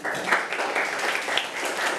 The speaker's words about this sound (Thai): อันดับแรกปรบมือกับเพื่อนก่อนค่ะ